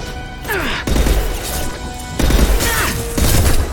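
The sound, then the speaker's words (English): A frozen enemy shatters into ice after a melee hit in a video game, heard as a few loud crashing, crunching impacts among busy game effects with swooping tones. “we smashed him while he was frozen and he just shattered to ice with a melee attack.”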